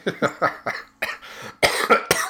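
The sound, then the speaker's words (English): A person coughs repeatedly in a rapid series of harsh, loud bursts, with a heavier cluster toward the end. No speech is heard. “Sorry, I got a nice cough here.”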